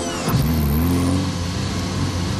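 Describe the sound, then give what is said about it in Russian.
Car engine accelerating in second gear after the clutch is engaged, on empty streets at a city's outskirts; a loud, continuous roar whose pitch climbs over the first second, then holds as a steady drone, with no voices. “Чарли посмотрел в сторону Фрэнка, ожидая его реакции, разгоняет машину.”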